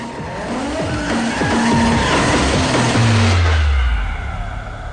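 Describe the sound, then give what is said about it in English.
A car spinning out and skidding on a dusty road, its tires squealing loudly over a revving engine for several seconds, the engine tone dropping sharply toward the end as the slide dies away. “Suddenly he spins out of control, kicking up a huge cloud of dust.”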